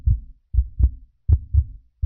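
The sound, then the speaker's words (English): A human heart beats in the chest as a few low, muffled thumps in a steady lub-dub rhythm, the double beats evenly spaced and heard alone. “As for the heart beating in the human chest.”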